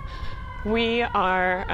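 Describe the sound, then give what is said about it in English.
Sirens wail outside: two loud sustained tones with a brief break between them, after a fainter steady tone. “Man, there's sirens.”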